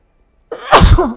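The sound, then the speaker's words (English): A single loud sneeze bursts out after a brief breathy build-up, sharp and explosive, then trails off, with no other sound around it. “I'm about to sneeze.”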